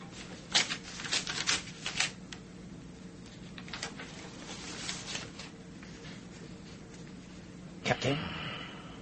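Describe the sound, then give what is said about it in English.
A seal is broken and a paper envelope torn open. Several short crackling, rustling bursts are separated by pauses, and the last burst is sharper. “It is time to break the seal and tear open the envelope.”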